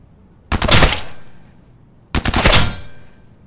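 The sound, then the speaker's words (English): Two tight, controlled bursts of automatic fire from a combi rifle as a sound effect. Each burst is a loud, rapid rattle that fades into a trailing hiss, and a short silence separates them. “fires their combi rifle through the doorway in tight controlled bursts right into the forehead and chest of the fake maid.”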